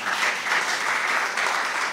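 Applause from an audience after a congressman's remarks: a dense, steady wash of clapping that fills the whole two seconds at an even, fairly loud level, with no distinct individual claps standing out.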